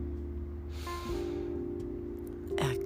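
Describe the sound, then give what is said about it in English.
A deep breath drawn in during a guided meditation makes a soft, airy hiss over a sustained low tone. A sharper breathy sound comes near the end. “Inhale.”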